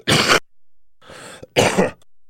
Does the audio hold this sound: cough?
yes